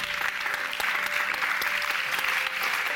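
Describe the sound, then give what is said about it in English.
Theatre audience at the Byre Theatre in St Andrews applauding at the close of a science show: thick, even clapping that holds steady throughout without pause. “Before we go, though, I'd like for you to give a huge round of applause.”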